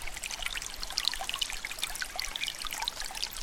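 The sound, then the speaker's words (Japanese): Mountain spring water from the Okawa river, called Ukkaa in dialect, trickles and burbles in a village at the northern tip of Okinawa's main island. The flow is steady and continuous, with bright, bubbly splashing throughout. “今聞いてもらっているこの音は、沖縄本島最北端にある江戸の集落の中にある大川という川、方言ではウッカーと呼ばれる川の山から流れ出る岩清水の音です。”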